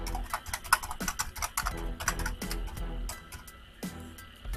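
Rapid typing on a computer keyboard while a bank account number is entered into a PayPal withdrawal form, with many crisp keystrokes in an uneven, quick rhythm, heard alone without speech.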